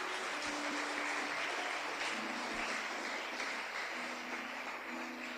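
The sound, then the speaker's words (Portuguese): Applause from an audience at a church worship service: a steady, continuous wash of clapping with faint sustained tones held beneath it. “Pode aplaudir o Senhor. Ele está no controle da sua vida.”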